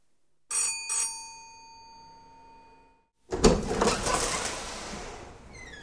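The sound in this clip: A doorbell rings with two bright, clear chime strikes in quick succession, each tone ringing down slowly into silence. After a pause, a louder burst of broad rustling and clattering noise follows and stays steady to the end.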